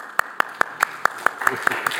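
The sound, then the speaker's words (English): A church audience clapping in time during a sermon: brisk, steady, rhythmic claps at about five per second, crisp and even over a dense background murmur. “You're not clapping for the preacher. We're clapping for the Lord.”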